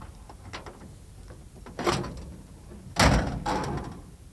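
A Studebaker's hood being opened by hand: soft clunks and metallic rattles, then two louder bursts of latch and hinge noise near the end, the second the strongest, over faint background hiss; no talk.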